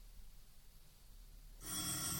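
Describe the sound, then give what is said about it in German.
A telephone starts ringing in an official's office downstairs: a sudden bright, buzzing electronic ring cuts in after a quiet, hissy stretch and carries on steadily to the end, with no voices. “Plötzlich wieder das Telefon.”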